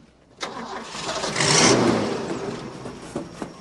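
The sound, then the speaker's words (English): A truck engine starts in a parking lot: a loud crank catches and swells into a rough rumble, then eases back toward a lower running sound. “reverses their brown truck out of the parking lot and they head off down the road”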